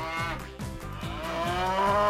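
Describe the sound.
A cow mooing: one long, loud, continuous low call with a rich harmonic tone and a slightly pulsing texture, steady throughout with no other sounds.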